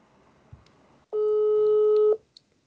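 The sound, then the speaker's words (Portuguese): A telephone call is placed: after faint background noise, a single steady ringing tone sounds for about a second, then cuts off. “E se a gente ligar para alguém perguntar? Tem a moral? Eu ligo e você continua?”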